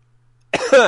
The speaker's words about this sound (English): No, it's not me coughing.